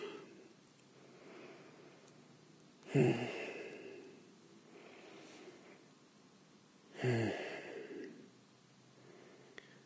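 Slow, deep breathing close to the microphone from two people holding each other, with two heavy sighing breaths rising well above soft, steady breath noise.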